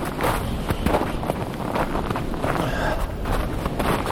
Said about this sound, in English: I think I'll maybe pause until the wind dies down because I'm not sure this wind sock is protecting enough.